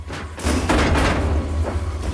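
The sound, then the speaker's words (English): A foot stamps on a square steel door set into a floor, giving a few heavy, booming metallic thuds over a dense, loud rumble. “sees a square door. He runs over and stamps on it.”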